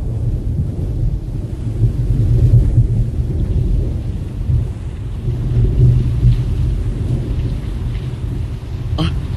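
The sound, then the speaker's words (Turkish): Heavy rain pours down in a dense, continuous roar, with deep rolling rumbles of thunder underneath that swell and fade, and no voices. “Yağmur yağacak galiba. Yağmaya başladı bile.”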